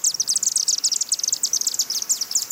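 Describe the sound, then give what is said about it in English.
Chimney swifts chitter inside the chimney of a 91-year-old house, a rapid, unbroken stream of thin, high-pitched chirps and twitters that overlap throughout. “The Rempelongs have chimney swifts living in the chimney of their 91-year-old old tuxedo home. They suspected something was up when they started hearing the high-pitched chittering sound this spring.”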